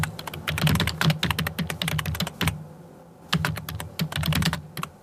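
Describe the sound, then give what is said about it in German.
Computer keyboard typing in an office: rapid, crisp key clicks in two busy bursts separated by a short pause, with occasional heavier keystrokes. It is moderately loud and heard alone. “So klingt's in vielen Berliner Büros längst nicht mehr.”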